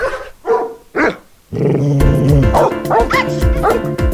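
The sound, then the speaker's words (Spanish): A dog barks in a few sharp, loud bursts, then a louder, continuous stretch of barking and yapping follows. “¡Sáquese, perro!”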